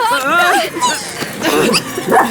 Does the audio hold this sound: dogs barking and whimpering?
yes

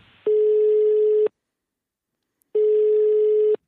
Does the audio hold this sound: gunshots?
no

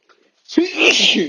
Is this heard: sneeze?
yes

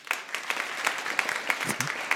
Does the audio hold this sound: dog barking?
no

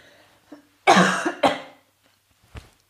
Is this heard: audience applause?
no

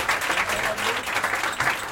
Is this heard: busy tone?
no

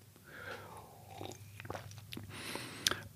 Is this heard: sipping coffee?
yes

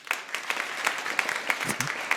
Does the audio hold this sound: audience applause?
yes

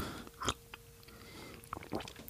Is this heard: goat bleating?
no

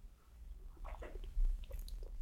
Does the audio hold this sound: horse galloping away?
no

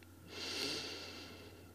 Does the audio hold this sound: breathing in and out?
yes

